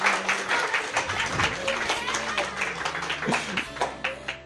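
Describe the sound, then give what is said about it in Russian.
An audience claps in praise of God at a religious service, keeping up a continuous patter of hands under a talking voice. “Дорогие сестры, давайте поаплодируем Господу. Drogie siostry, chodźcie. Поаплодируем Господу. Прославим Господа. А прославим. Похлопаем вот так.”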